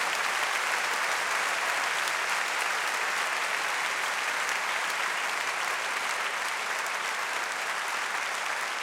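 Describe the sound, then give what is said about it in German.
An audience clapping: steady, dense applause from a crowd that holds an even level throughout, with no voices standing out over it. “Ich brauche euer Klatschen, okay? Aha. Langsamer. So macht man das.”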